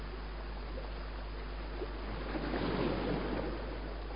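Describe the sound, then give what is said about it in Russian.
Sea surf in a radio drama, a steady wash of waves that swells briefly near the end before settling back to an even hiss. “Слушай, Эдмон, это шумит море.”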